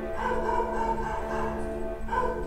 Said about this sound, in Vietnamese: Bắt đầu đến giờ chó sủa.